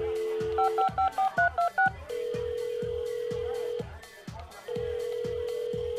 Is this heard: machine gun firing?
no